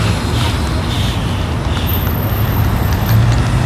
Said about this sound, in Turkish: Burada bir arabalar o tarafa gidiyor.